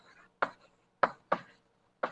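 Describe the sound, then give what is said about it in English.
Writing strokes on a board during a physics lecture: four short, sharp knocks, unevenly spaced, each one dying away quickly, with no talk. “Okay, I'm officially writing too many steps.”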